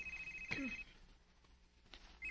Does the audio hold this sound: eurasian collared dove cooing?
no